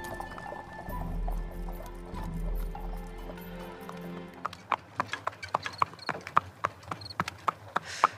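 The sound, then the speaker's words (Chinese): Hooves clip-clop as a horse pulls a carriage along a city street at night. A low rumble comes first, then many sharp, evenly spaced hoof strikes in a steady rhythm. “一挥手领着长青的马车朝街道深处而去。”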